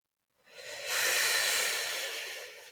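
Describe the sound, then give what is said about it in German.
A deep breath slowly exhaled almost silently on a soft "hu": a single airy hiss that swells in and holds steadily for about two seconds, faint and breathy with no clear voiced tone. “Jetzt atme tief ein und atme fast ohne Ton mit dem Laut Hu aus.”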